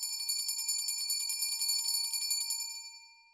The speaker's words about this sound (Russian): в эту минуту прозвучал звонок, извещающий об окончании урока.